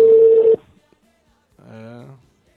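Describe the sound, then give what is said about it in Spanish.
A telephone call is placed from a studio: a short, steady line tone, then silence, then a second, softer tonal burst. “ahora estamos llamando su otro número. Estamos llamando ahí”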